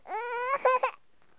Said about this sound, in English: I'm getting kind of tired of this constant whining. What is going on? Change your diaper.